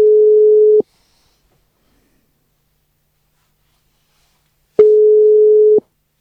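An unanswered telephone call to a rallycross champion's phone, heard from the caller's side: two steady, low-pitched ringback tones, each about a second long, separated by a long silence.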